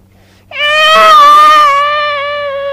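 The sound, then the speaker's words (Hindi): A voice imitates a boy crying as he goes to his father to complain about his mother: a single loud, sustained wail begins after a brief quiet moment and holds a fairly steady pitch to the end. “तो माँ की शिकायत लेकर अपने पिता के पास आया, रोता हुआ आया, कहने लगा माँ की शिकायत लेकर,”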